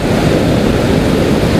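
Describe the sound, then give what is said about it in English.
Ocean waves break on rocks as the tide goes out, making a loud, steady rushing wash of surf and foam with no separate break standing out. “they were getting battered by waves, but now not so much. Because the tide is going out.”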